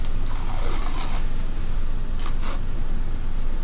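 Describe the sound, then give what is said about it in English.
Duct tape being pulled off the roll makes a few loud, rasping tearing bursts over a steady, crackling noise bed. “Sorry, I got distracted by duct tape. I just love how it sounds.”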